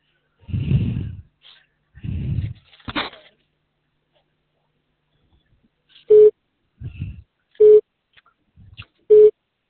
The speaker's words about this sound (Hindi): आपके द्वारा डायल किया गया नंबर अभी व्यस्त है या इस समय उपलब्ध नहीं है